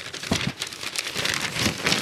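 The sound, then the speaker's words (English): Newspaper pages rustling and crinkling in a steady, dense papery hiss that carries on without pause for about two seconds, with no voices. “Recognize that sound? That's a newspaper.”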